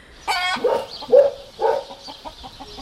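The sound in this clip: Chickens clucking in a few short, throaty bursts, with a higher, brighter squawk at the start and softer clucks trailing off after. The calls are fairly loud, and no one speaks.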